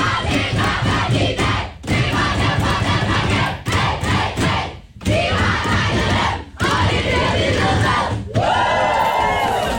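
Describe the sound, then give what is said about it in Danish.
The Danish women's national football team cheers in the dressing room after a 4-1 win over Serbia, a loud group of voices shouting and chanting. A few short pauses break the noise, and high squeals rise near the end. “Det er lyden af de danske fodboldskvinder, det danske landshold for kvindefodbold, som altså var ret begejstret i omklædningsrummet i går, efter de havde slået Serbien”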